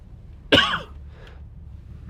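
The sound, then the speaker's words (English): A single sharp, throaty cough bursts out loudly over a low background hum, followed by quiet, with the start of another cough cut off at the very end. “excuse me, gracious. I don't have a cough button, so I can't effectively eliminate those.”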